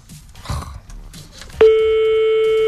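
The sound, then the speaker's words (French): A telephone ringing tone on an outgoing call cuts in suddenly and holds as one steady, buzzing tone to the end, after a few faint, scattered sounds. “Ah, ça sonne. Allez, réponds.”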